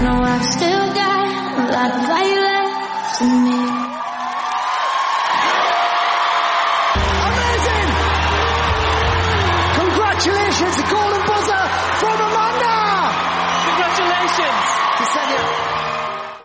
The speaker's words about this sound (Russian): Как реагировала публика на выступление крымчанки, давайте послушаем.